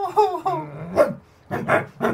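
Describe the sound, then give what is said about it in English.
A dog growls and snarls in a brief, loud run of rough, throaty bursts, with a few short bark-like yelps. No other sounds are heard. “Brutal stands, a bit unsteady on the feet, turns, looks at Bertie, growls,”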